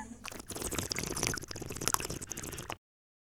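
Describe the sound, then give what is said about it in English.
Wine slurped to aerate and taste it: a bubbly, gurgling draw of liquid lasts just under three seconds, then stops abruptly into silence. “I hate to call it a slurpy sound, but it is a slurpy sound when you actually aerate and actually taste the wine.”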